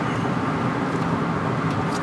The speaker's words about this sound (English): I'm just driving away from Essex Junction, Vermont, which is the last town that we played.